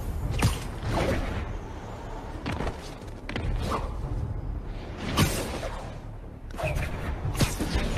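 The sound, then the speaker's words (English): Repeated airy whooshes of web swinging through New York City in a video game. Several swishing sweeps swell and fade over a low, steady background rumble. “I really love the web swinging in this game, but it's kind of annoying when you get to the edge of the map and then there's no more buildings to web swing from, so you just kind of fall into New York Bay.”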